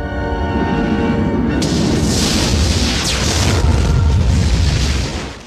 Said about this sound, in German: Boom, das hättet ihr mal sehen sollen. Eben wurde das Weiße Haus einfach mal dem Erdboden gleich gemacht.